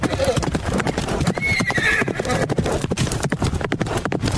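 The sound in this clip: Horse hooves clip-clop in a steady, loud rhythm throughout, and a horse neighs once partway through as the hoofbeats keep going.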